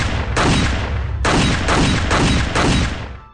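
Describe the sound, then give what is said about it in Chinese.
Rapid pistol gunfire: a dense, loud run of booming shots packed tightly together, with a few fresh bursts punching through before the sound tails off at the end. “刘果拔枪射击，每颗子弹都精确地击中妇人眉心”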